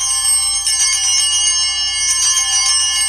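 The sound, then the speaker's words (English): Bells ring vigorously, a bright, continuous metallic jangle that holds steady and loud for about three seconds with no voices. “when he's ringing the bells, he's not doing it with any vigor. It's supposed to sound like this.”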